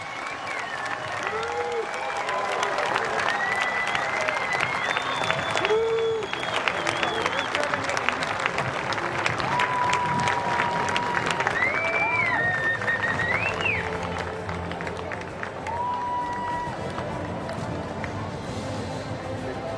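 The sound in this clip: Fans applauding and cheering a welcomed guest at an induction ceremony: clapping swells after a couple of seconds into a loud, sustained ovation with scattered whoops, then thins out toward the end.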